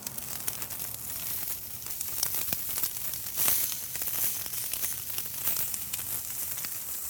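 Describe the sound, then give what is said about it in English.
Bacon-wrapped tournedos sear upright in a preheated cast iron skillet over a big, very hot coal bed, giving a steady, dense sizzle and crackle that stays level throughout with no talk. “I'm preheating a big cast iron skillet over the top. The first thing that we're gonna do is sear the bacon on the sides of the tornados.”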